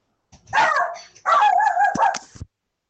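A person imitating a dog barking, two drawn-out, loud bark-like vocal bursts in quick succession with nothing else around them.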